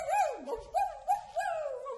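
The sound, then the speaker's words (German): A person imitates a howling dog, voicing a few wavering, whining yowls that glide up and down in pitch, fairly loud and with no other sound. “Und ich könnte jaulen, so.”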